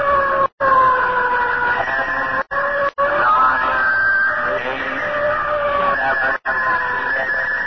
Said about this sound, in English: Sound fire warning. Stand by for firing.